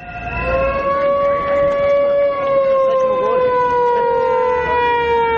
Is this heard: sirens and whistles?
yes

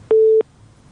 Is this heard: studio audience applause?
no

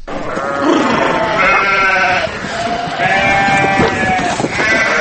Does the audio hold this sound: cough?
no

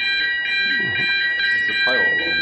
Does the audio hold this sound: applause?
no

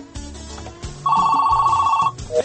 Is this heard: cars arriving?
no

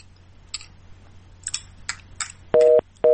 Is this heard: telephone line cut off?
yes

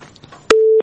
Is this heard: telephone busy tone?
yes

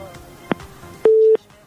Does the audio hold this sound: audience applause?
no

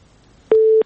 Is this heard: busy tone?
yes

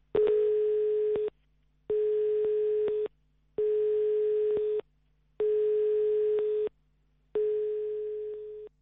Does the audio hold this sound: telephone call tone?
yes

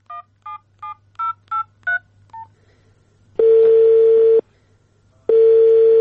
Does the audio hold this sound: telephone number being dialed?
yes

